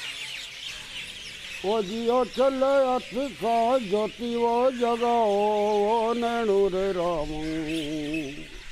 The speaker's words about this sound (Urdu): طرح طرح کے پنچھی بھی یہاں ٹھکانا کرتے ہیں، چڑیا چیل، کوا، کوئل، مینا مور، سینکڑوں کی تعداد میں پھدکتے لپکتے چہچہاتے پرندے دانا چکتے ہیں